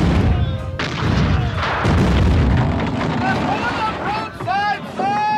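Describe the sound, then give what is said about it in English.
Naval cannon fire in a sea battle: a loud, continuous rumble of booming blasts, with shouting voices rising over the din toward the end. “Make ready the guns! Form line of battle! Guns ready, sir! Fire at will! Fire!”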